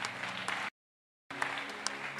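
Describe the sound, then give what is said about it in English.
A church audience claps hands together in dense, steady applause. The clapping breaks off into silence for about half a second midway, then resumes with a few sharper claps standing out. “So clap your hands for Jesus there.”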